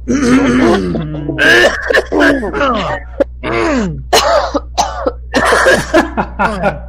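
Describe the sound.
Throat clearing by people just before a recording: a quick run of coughs, grunts and groaning vocal noises with gliding voiced tones, fairly loud, repeated many times without clear words.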